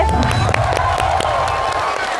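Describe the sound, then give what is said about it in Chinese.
Audience applause mixed with cheering breaks out at a cooking show stage event. Dense, steady clapping runs alongside crowd noise, with a faint voice and a steady tone underneath. “着急鼓掌是吧？”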